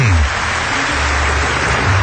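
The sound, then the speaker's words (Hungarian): Audience applause at a live show: a loud, continuous wash of many hands clapping at once, dense and even from start to finish, with a brief low tone at the very beginning. “hagyjátok abban a tapsot, mit tapsolnak? Egyáltalán azt tapsolják meg, hogy kettő percen múlt fél hét.”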